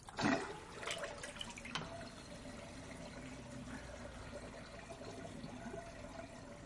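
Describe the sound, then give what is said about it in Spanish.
Red-tinted water drains from a bathroom sink after the plug is pulled, giving a soft, steady gurgling rush with a slightly louder burst at the start. “Cierra el grifo y quita el tapón para que se vaya el agua teñida de rojo.”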